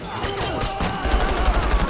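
Gunfire crackles in a rapid, dense volley of many overlapping shots that runs without a break for two seconds. It is loud throughout, and the low-end thumps grow heavier in the second half.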